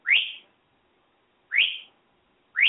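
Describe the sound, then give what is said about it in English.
A bird calling three times, each call a short, bright whistle that sweeps quickly upward and holds briefly, separated by silent gaps. “So. Bird.”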